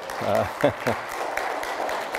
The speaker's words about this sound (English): So that applause goes to the Lord and to her.